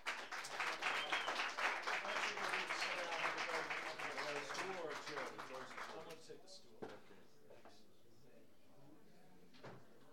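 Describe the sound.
An audience applauds to welcome a musician, with thick, loud clapping that thins and fades away after about six seconds into near quiet.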